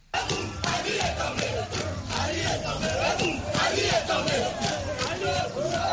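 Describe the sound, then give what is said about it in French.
Crowd in Libreville cheering in jubilation, with many voices shouting and whooping together in a loud, continuous, jostling roar after an abrupt start. “À Libreville, le coup a été accueilli par une liesse populaire.”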